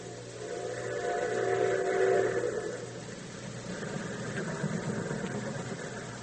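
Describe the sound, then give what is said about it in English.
Train engine rumbling in a low, steady drone, swelling slightly near the start and then holding level with a mid-range hum on top; no voices. “See, that's a train.”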